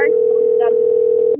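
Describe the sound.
Ringback tone of an outgoing telephone call: a single steady pitch held for over a second, then cut off, with faint voice fragments on the line.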